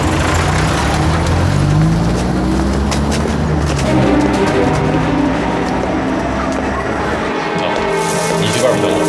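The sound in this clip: A car engine roars loud and steady as the vehicle drives off, its hum climbing in pitch early on before settling into a sustained rumble.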